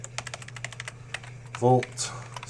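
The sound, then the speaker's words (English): Computer keyboard typing as a filename is entered to save a CSS file in the Komodo editor: a brisk run of many light, crisp clicks, then a short burst of voice near the end. “So I'm going to save my CSS and call it”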